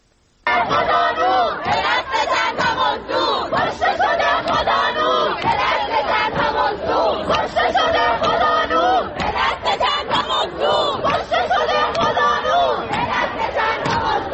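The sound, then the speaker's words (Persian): Protesters chant slogans in unison at a demonstration in Zahedan, a loud, dense crowd roar with a steady rhythmic pulse that starts after a brief silence and carries on to the end. “الان میتونیم صدای این شعارها رو بشنویم.”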